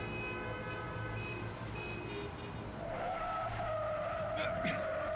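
Tires skid and squeal over a steady engine roar. The noise is continuous, and a high tonal whine sets in and strengthens through the second half.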